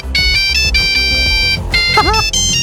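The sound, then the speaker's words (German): An old mobile phone ringtone plays a bright, beeping electronic melody of short repeated notes over a steady rhythmic beat, loud and busy, with a brief swooping pitch bend near the end. “Schön wär's, wenn wir solche Klingeltöne noch hätten, ja.”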